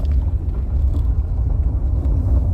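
A car being driven gives off a steady low rumble of engine and road noise that holds evenly throughout, with no voices.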